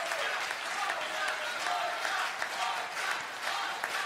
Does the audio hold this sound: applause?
yes

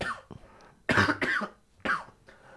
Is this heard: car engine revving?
no

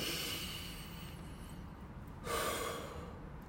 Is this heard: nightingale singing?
no

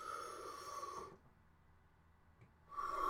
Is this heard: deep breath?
yes

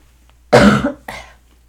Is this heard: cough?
yes

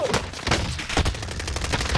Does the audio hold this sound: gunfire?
yes

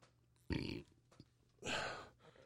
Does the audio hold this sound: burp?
yes

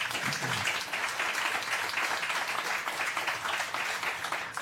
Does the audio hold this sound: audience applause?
yes

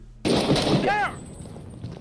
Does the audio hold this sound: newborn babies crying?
no

